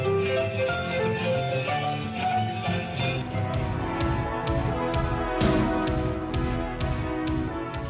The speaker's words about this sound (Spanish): Y esta queremos que sea, desde hoy, nuestra sintonía, su sintonía. Suena así.